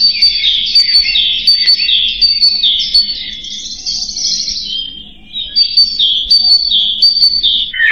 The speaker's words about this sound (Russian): А это пропела синица.